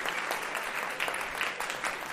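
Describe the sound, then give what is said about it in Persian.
Audience applause, a dense, steady wash of many hands clapping at an even level from start to finish. “امروز محکم میتونی تشویق کنین.”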